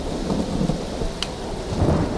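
A thunderstorm: steady, dense rain hisses throughout while low thunder rumbles and rolls beneath it, with no voices.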